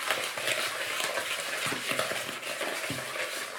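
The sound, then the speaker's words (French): Yogurt being mixed vigorously with sugar, a steady, busy scraping and stirring noise with many quick soft clicks running throughout, fairly even in loudness and without any talk. “Donc je mélange le yaourt avec le sucre. Énergiquement, comme vous pouvez l'entendre.”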